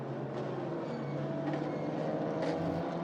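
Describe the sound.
A Mustang and the number 25 BMW race cars during practice at the Roar in the Michelin Pilot Challenge 2023: a steady, droning engine roar with no talk.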